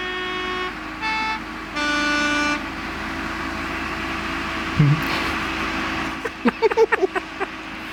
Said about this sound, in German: Man sieht jetzt einen uralten gelben Postbus die Bergstraßen aufgefahren.